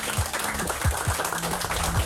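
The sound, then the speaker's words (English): Studio audience in Amsterdam applauding a special guest: steady, dense clapping at an even level throughout, with a few soft low thumps and a faint low tone underneath. “And please, Amsterdam, make some noise for our special guest, all the way from Italy, Federico Cristaudo.”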